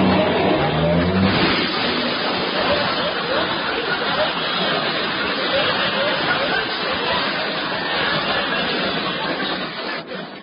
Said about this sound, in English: There ain't much room here in this garage. And I gotta back out very carefully.